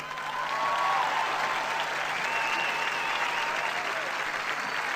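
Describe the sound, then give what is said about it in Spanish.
Audience applause at a concert for a band with guitars and drums, an even, sustained crowd clapping that swells quickly and holds steady at a moderate level for about five seconds. “Les voy a pedir un aplauso enorme para Guillermo Arrón en guitarra.”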